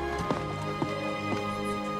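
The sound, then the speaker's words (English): Stamping of shoes on a mat to knock off snow after climbing snow-covered steps to a club entrance: three dull, fairly faint thumps, evenly spaced, set beneath a steady tonal music bed. “walks up snow-covered steps and stamps the snow off his shoes on a mat with Reform Club”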